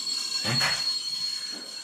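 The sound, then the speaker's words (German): Train arriving with its wheels squealing: a steady high metallic squeal runs throughout, with a louder burst of rumbling, grinding noise near the middle and a fainter swell toward the end. No voices. “unser Stevie, der reist immer mit dem Zug an.”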